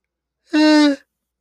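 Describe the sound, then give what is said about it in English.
A single short voiced yawn, a steady-pitched tonal groan lasting about half a second, heard alone with no talk around it. “Apologies, another yawn”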